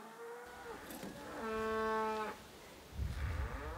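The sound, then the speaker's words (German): A cow lets out one long, deep mooing call while cattle are herded along a path behind older lead animals. The moo is steady and harmonic, and quiet rustling follows it. “Die älteren Rinder kennen den Weg und gehen voraus. Solche Leittiere sind in jeder Herde.”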